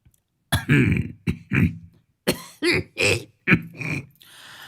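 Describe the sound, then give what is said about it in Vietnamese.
An elderly man coughs several times, each harsh, rasping burst loud and separate, in an uneven rhythm with no talk around them. “ho sổ sụ lên mấy tiếng, tựa như là một dấu hiệu để cho mọi người đang nhao nhao phải yên lặng”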